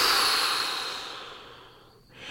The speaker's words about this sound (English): Next breath, take a big inhale with me. Exhale through your mouth.